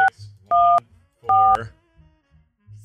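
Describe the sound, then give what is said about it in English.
Telephone keypad tones while dialing a 1-800 number: three clear electronic two-tone beeps, the first cut short at the start, separated by gaps of faint low background noise. “We're going to go 1-800. Can you hear that beep?”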